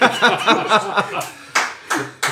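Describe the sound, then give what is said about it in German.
Applause comes in after talk: three short, loud bursts of clapping in the second half, each one breaking off quickly, with chuckles and voices before them. “Da gibt es gleich mal Applaus.”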